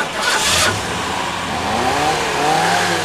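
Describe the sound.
A car engine revving: a short loud burst near the start, then engine tones that rise in pitch as the throttle is opened again, with no talk over it.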